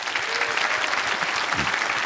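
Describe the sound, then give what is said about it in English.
An audience applauds a producer at a live recording, a loud, dense and even clatter of many hands that holds steady throughout. “Yes, our wonderful producer, Lara. Who is, please clap for Lara.”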